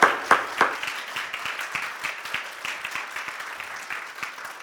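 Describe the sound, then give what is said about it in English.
A church audience applauding to welcome guest pastors: dense, sustained clapping with a few sharp claps near the start, no talk over it. “Would you join me in welcoming Pastor Rob and Shauna from Church of the Harvest? Come on, City Church, let's give it up.”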